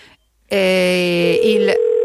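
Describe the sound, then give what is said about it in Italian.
A telephone ringing tone on an unanswered call: one steady, buzzy, pitched ring burst lasting a little over a second, with a slight step in tone near its end, after a short silence. “l'ultimo squillo, sentiamo un po'. Niente da fare. Era decisamente fastidioso, devo dire, questo squillo.”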